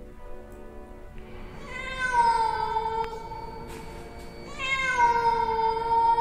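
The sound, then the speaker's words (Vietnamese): A black cat meows: two drawn-out, tonal meows that bend in pitch, the second slightly louder, with fainter sounds just before them. “Ở sau lưng tôi, bên kia đường, một con mèo đen đang ngồi chễm chệ. Nó nhìn tôi, nó kêu thêm vài tiếng nữa.”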